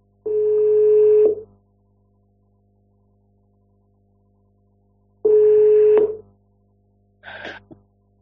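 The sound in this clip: Steady telephone tone heard while placing a call: two long, mid-pitched tone bursts separated by several seconds of silence, followed by a shorter, higher-pitched burst.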